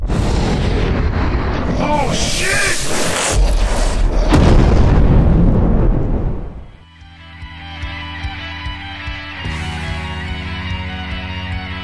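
Heavy gunfire booms merge into a loud, rumbling roar for about six seconds, then drop away, leaving a quieter, steady humming tone.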